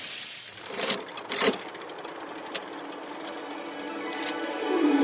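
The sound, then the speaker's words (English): A hand-cranked brass calculating engine with about 2,000 moving parts, wheels and gears, runs with a steady mechanical whir and rattle, punctuated by a few sharper clacks. “It stood about 2 feet tall and had 2,000 moving parts, all made out of brass. Charles Babbage turned the hand crank, and the entire machine came alive.”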